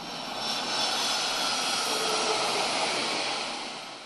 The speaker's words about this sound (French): Un aéroport et des pistes au bord desquelles nous emmène Solène Perman.